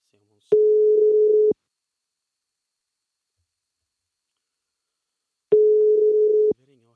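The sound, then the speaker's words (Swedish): Telephone ringback tone while calling a sister: two identical steady, mid-pitched tones, each about a second long, separated by a long silent gap. “Och då tänkte jag så här att ringa upp henne här.”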